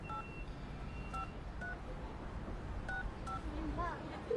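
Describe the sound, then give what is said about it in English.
Keypad tones from a number being dialed on a mobile phone, several short, faint two-tone beeps spaced unevenly over a steady hiss of background noise. “puts money on her phone and makes a call”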